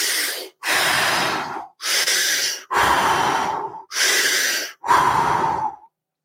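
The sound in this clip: Deep breathing exercise, six long, slow breaths in steady succession, each a loud rushing of air lasting about a second, with brief pauses between them and no talking.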